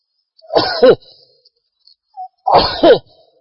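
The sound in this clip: Two sneezes burst out a couple of seconds apart, each an explosive double-peaked blast of breath and voice, with a faint short sound in the quiet between them.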